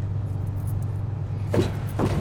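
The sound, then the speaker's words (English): A truck driving up a street, heard as a steady low engine rumble that continues throughout, with two brief louder bursts of noise near the end. “Later, she drives the truck up a street.”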